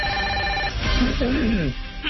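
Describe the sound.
A telephone ringing with an incoming call: a brief, steady electronic ring tone at the start, then a voice speaking.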